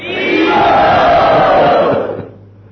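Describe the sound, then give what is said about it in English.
A crowd shouts "Hari Bol" together to welcome a visiting holy man, one loud sustained roar of many voices that holds steady and then fades at the end. “This is His Holiness Vishnu Maharaj. Let us welcome him by saying Hari Bol.”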